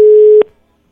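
A telephone line tone plays on a call that goes unanswered: one loud, steady, low-pitched tone lasting under half a second, then cut off sharply.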